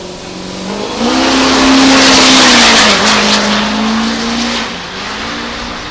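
A truck pulling a trailer in a drag race roars loudly, its engine pitch climbing sharply early on, then holding high with a brief dip before the sound eases off toward the end.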